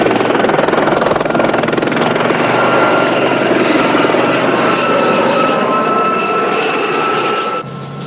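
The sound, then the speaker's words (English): A helicopter circles overhead around a motorbike trailing white smoke, its rotor and engine making a loud, steady, dense drone that barely changes for the whole stretch before dipping slightly in level at the very end. “The helicopter circles around the bike.”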